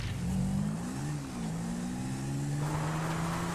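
A video game car, spawned on an airport runway, hums with a steady low-mid engine drone that dips slightly in pitch and then levels off, over a broad hiss.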